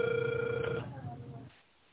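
Ringback tone of an outgoing telephone call, faint and thin through the phone line. One steady tone lasts under a second, then fades into quiet line hiss.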